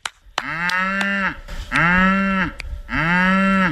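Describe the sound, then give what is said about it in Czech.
Cows and calves mooing at a farm during hay feeding: three long, loud, drawn-out moos, each lasting close to a second, with short pauses between them and no talk. “Ne, bík ne, zatím běží krávy a telota.”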